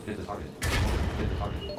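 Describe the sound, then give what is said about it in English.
A deep, booming explosion from a missile drop in a naval battleship video game, hitting abruptly and rumbling on strongly over steady game noise, with a voice talking. “Another missile drop. Oh, they killed him.”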